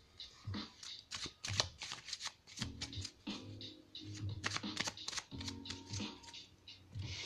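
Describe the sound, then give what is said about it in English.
Tarot cards being shuffled by hand: many quick, crisp riffles and soft slaps in irregular bursts, fairly quiet, with no talking. “And I'll just pull the cards.”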